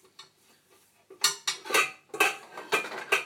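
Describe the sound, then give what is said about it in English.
Metal pots clatter and clank as they are pulled from a kitchen cupboard. A few faint taps come first, then a loud run of sharp, ringing knocks and scrapes in uneven bursts. “Let's find the pot that I'm going to use.”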